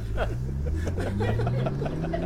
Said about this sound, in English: I step on the gas.